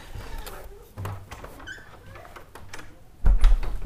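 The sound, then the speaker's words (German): A door is pulled shut: faint shuffling and soft creaks lead up to a low, dull thud as it closes near the end. “ich muss mal gerade die Tür hier zumachen”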